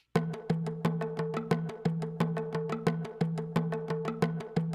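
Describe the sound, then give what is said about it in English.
Drums played by two people in time to a 12 hertz tempo, with simulated Stonehenge acoustics added. Many quick, evenly spaced hits run under a sustained low ringing hum that lingers between the strokes. “Then if you add Stonehenge's acoustics, it sounds like this.”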